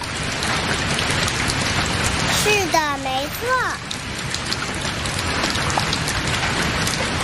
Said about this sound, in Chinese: 这种声音出现的时候，天空中是不是有很多水落下来呢？